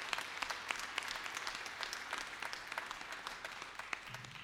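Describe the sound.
An audience applauds to welcome a new executive director. The patter of many hands clapping is faint and steady throughout.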